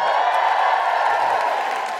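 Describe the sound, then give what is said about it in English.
Audience applause and cheering for a stand-up comedian, a steady, dense roar of clapping and crowd noise at an even level throughout. “Big round of applause for the wonderful Alison Spittle.”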